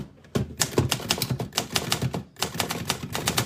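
Rapid typewriter keystrokes as someone types out an affirmation: many sharp clacks in an uneven rhythm, with a brief pause partway through before the typing resumes.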